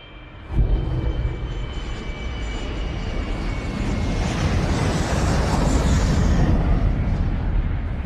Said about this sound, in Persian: محض اطلاع این صدای ضبط شده پرواز 1549 هواپیمایی یو اس ایرویز در تاریخ 15 ژانویه سال 2009